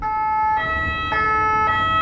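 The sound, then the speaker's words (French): Loud two-tone siren of a yellow ambulance stuck in traffic behind a car waiting first at a red light, switching pitch every half second or so over a low rumble of traffic. “Que faire quand elle est la première de la file et que les sirènes hurlent derrière elle ? L'ambulance jaune est bloquée.”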